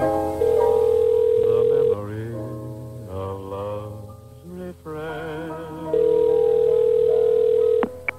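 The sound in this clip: Telephone dial tones before a phone call: two long, steady, unbroken tones, each lasting one to two seconds, separated by a stretch of music that plays beneath them throughout.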